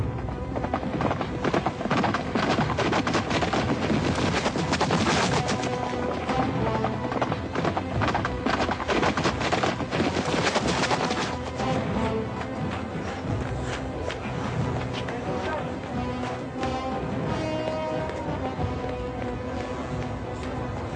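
Hooves of a hundred armed horsemen attacking around a mosque: a dense, unbroken clatter of galloping hoofbeats that stays loud and busy for about twenty seconds.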